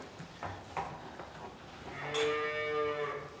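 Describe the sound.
A cow moos in a barn while her calving pen is being prepared. One deep, drawn-out, loud moo comes in the second half, after a few faint knocks and rustles. No one speaks.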